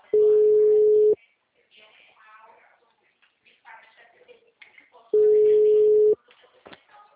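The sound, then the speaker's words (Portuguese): Ringing tone of an outgoing phone call: two long, steady low tones about a second each, separated by a pause of several seconds in which people talk. “Do Rafael, eu tô ligando, entrando em contato.”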